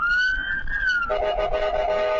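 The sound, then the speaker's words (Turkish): An ambulance siren sounds on a road in Büyükçekmece, Istanbul, as the ambulance moves in the left lane. It is loud and continuous, holding a high tone before switching to a lower, steady tone about halfway through. “İstanbul Büyükçekmece'de bir ambulans sirenleri açık halde sol şeritte ilerliyordu.”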